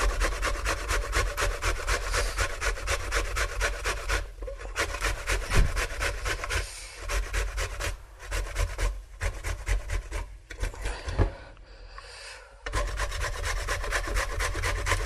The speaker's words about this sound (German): Die Zwiebel, die reibt er dann auch.